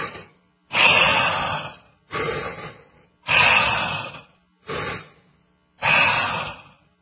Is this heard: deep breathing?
yes